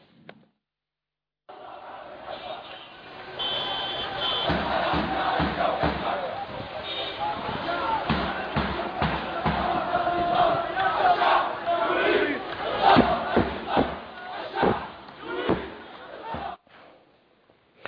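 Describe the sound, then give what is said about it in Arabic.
A protest crowd in Hama, Syria, chants in unison for the fall of the regime, with loud, rhythmic shouted phrases repeating over many seconds and sharp accented beats in the chant. “إسماعيل، يمكن شفنا في حماة وهم بيرددوا الشعب يريد إسقاط النظام”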